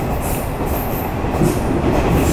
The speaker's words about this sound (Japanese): まもなく終点5位に到着いたします。